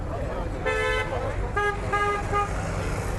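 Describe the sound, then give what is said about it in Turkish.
Car horns honk repeatedly in a megacity's traffic: one longer toot followed by three short ones, moderately loud over a steady low rumble of road noise. “Mega kentin bitmeyen gürültüsüne uyarı için peş peşe çalınan korna sesleri de ekleniyor.”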